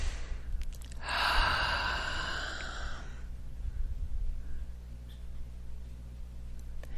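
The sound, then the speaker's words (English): A single slow, deep breath, airy and steady for about two seconds before fading into a quiet background hum. “Nice deep breath, please.”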